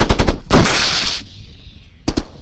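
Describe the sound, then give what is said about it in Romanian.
Machine guns firing automatic fire during training at an abandoned Afghan village near Kandahar: a quick burst of sharp shots, then a sustained loud roar of fire, and two more sharp reports after a lull. “Mitraliere la reper 3, fâng! Foc automat!”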